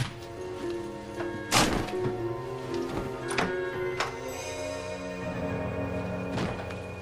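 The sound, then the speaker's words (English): Quiet thumps and knocks as a chair is moved, a curtain is ripped down and a door is opened: several sharp, scattered knocks and thuds over a low background, with no talk. “He moves a chair, rips the curtain down and opens the door.”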